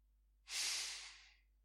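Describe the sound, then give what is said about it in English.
A person drawing one slow, soft breath, an airy hiss that swells quickly and then fades gradually over about a second, alone and quiet. “Take another breath.”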